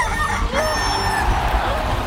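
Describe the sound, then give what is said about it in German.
A rooster crows among clucking hens, a strained crowing call over a loud, dense, noisy mix that runs through the whole short clip. “Das WDR 4 WM-Orakel, angeführt von Hahn Günther und seinen 7 wilden Hennen.”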